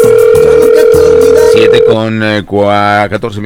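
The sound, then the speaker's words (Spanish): Ringback tone on an outgoing telephone call: a steady, loud, held tone lasts about two seconds, then cuts off as a recorded voice starts speaking. “Vamos a ver si tenemos oportunidad de que nos reciban la llamada.”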